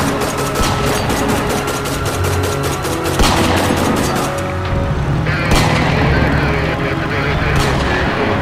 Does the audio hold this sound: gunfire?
yes

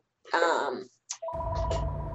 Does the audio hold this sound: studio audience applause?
no

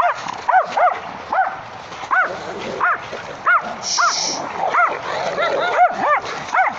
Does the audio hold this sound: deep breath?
no

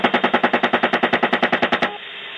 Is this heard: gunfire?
yes

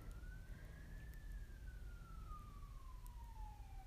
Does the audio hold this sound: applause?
no

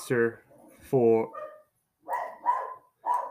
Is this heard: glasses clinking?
no

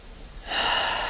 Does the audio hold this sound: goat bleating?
no

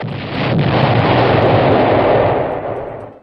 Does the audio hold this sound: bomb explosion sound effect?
yes

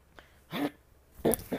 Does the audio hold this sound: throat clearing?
yes

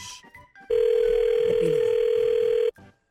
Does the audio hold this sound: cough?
no

